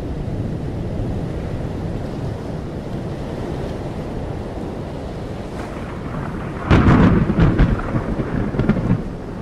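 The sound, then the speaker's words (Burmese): Heavy rain pours in a storm over the sea, a dense steady roar that suddenly grows louder near the end with a sharp crash and rolling rumble of thunder, with no voices. “မိုးသည်ပို၍ပို၍သဲထန်လာ၏”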